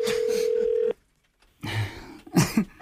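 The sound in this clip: Telephone ringing tone: one steady, mid-pitched tone of just under a second that cuts off abruptly, then a short silence followed by throat and voice sounds.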